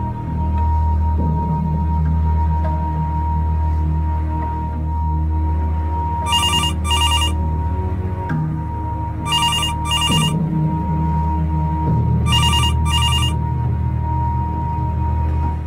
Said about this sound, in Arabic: تليفون رن وردت عليه عادي